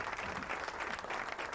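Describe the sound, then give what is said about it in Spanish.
Applause sound effect: a dense, steady burst of many hands clapping at even loudness for under two seconds, with no voices over it. “Y aplauso”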